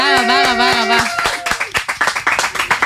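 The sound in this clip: Audience applause for a singer on an entertainment TV show. A voice is heard over the first second, then separate hand claps follow as sharp, uneven bursts, looser and less dense than a full ovation.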